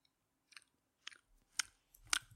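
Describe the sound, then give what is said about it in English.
Lip-smacking ASMR mouth sounds: four soft, wet smacks spaced roughly half a second apart, each a little louder than the last, quiet overall and with no talking. “Oh, it even feels wrong to do lip-smacking things. ASMR.”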